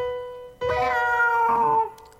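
Cat meows are strung together as notes of the happy birthday tune: a couple of drawn-out, tonal meows follow one another closely, clear and fairly loud, with no talk over them.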